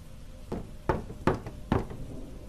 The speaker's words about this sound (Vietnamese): Tiếng gõ ba tiếng rõ mồn một, như là đang có ai gõ gõ vào cánh cửa bằng gỗ.